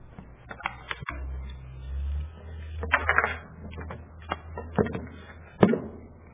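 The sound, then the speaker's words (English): Plastic cruise identification cards being handled, giving scattered light clicks and clacks at an irregular pace. The sounds are faint, with a few sharper taps toward the end. “These are my cruise cards. You get one of these each time you go on a cruise.”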